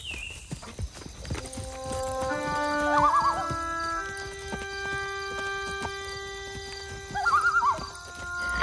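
A horse whinnies twice, with shrill, quavering neighs, during a ride. Soft clip-clopping hooves are heard at the start.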